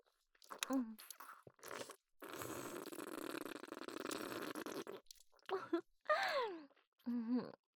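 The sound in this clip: Crunchy food being chewed, a rough, noisy crunching that runs steadily for several seconds, with brief vocal sounds before and after it.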